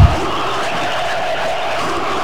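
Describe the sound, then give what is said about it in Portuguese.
Football crowd chanting in the stands at a Brazil versus New Zealand match: a dense, steady roar of many voices that holds at an even, loud level throughout. “E a torcida continua no Utererê.”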